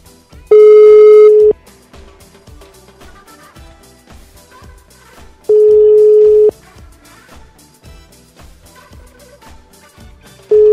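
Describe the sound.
Telephone line tones while a call to a restaurant fails to get through: three long, steady, loud beeps, each about a second, spaced several seconds apart, with faint rapid ticking in between.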